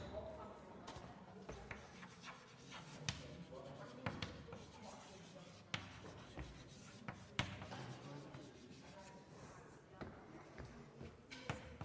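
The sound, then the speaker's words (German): A mathematical formula is written out by hand with many short scratchy strokes, rubs and light taps. The strokes come in an uneven rhythm and stay faint throughout. “Ja, und das schreibe ich so.”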